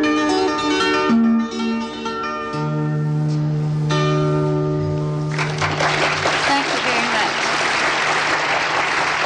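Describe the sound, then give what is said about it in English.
Enthusiastic audience applause after a sung psaltery performance. The instrument's last sustained tones ring out first, then a dense, steady clapping swells and carries on to the end. “enthusiastic applause for the sweet singing of Betty Smith and her psaltery, one of the most ancient of instruments.”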